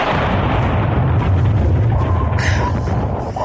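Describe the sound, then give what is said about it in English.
A torpedo is fired and explodes near a battleship. A loud, dense roar and rumble with crackling texture fills the whole clip. “Battleship, quite close. Fire torpedo!”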